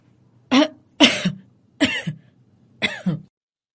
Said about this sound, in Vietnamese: ông Tuấn mới giả bộ ho khổ khổ rồi đáp.